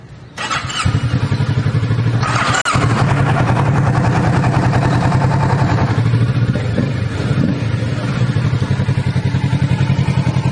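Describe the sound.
A motorcycle engine catches on a push-button start and settles into a loud, steady, rapidly pulsing idle that runs on without a break.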